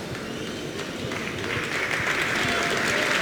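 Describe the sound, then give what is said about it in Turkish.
Applause from a football crowd in a stadium, with fans clapping in a steady, fairly faint wash of noise that swells slightly louder in the second half. “Alkışlar ona.”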